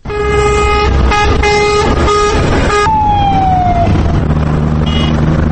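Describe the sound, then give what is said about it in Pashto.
Foreign military convoy vehicles pass along Kandahar city streets, with loud sustained horn blasts and heavy engine rumble, followed by a descending siren-like tone as the vehicles move on. “دا په کندهار ښار کې د بهرنیو نظامی ځواکونو د پوځي کاروان د موټرو ژغ دی چې د یو ساعت په اوږدو کې څو ځله د کندهار ښار د بیلابیل واټونو څخه تیریږي”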